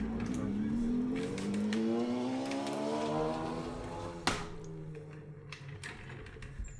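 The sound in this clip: Motorcycles drive past outside an apartment, their loud engine drone sliding downward in pitch as they go by. The roar then thins out into quieter traffic noise, broken by a brief sharp knock.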